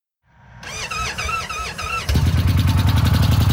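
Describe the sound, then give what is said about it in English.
A motorcycle starts roughly and weakly: the starter cranks with a wavering, laboring whine, then the engine catches into loud, rapid, rough-sounding firing pulses. “this is one of the roughest, weakest starting sounding bikes I've ever heard. Listen to how this thing starts.”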